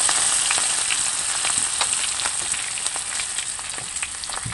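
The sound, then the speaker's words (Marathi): Spices and onion-garlic masala with coriander powder sauté in a pan, giving a dense, continuous sizzle with scattered sharp crackles and no voices throughout. “परतून घेऊ। मसाले करपले जाणार नाही त्याची काळजी घेऊया।”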